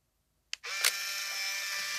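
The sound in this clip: A camera shutter snaps once as a photo is taken: a sharp, faint click followed by a steady hiss.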